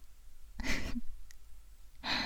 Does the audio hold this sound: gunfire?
no

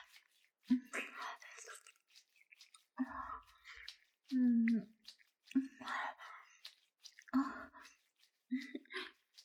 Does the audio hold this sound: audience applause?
no

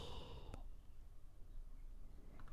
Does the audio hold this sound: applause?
no

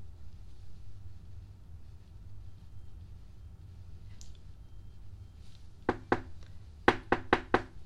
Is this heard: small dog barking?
no

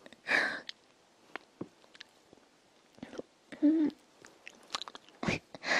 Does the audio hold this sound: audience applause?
no

